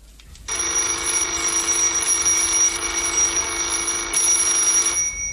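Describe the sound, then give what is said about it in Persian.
An electric desk call bell is held down, giving a steady, continuous high metallic ring that starts abruptly and sustains at an even loudness for about five seconds, with no talk. “زنگ اخبار روی میز را فشار می دهد.”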